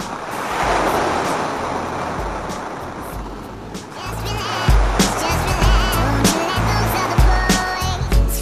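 Sea waves rolling and breaking, a loud, continuous rushing wash of surf with rumbling low surges that grow heavier and more turbulent in the second half, with no voices.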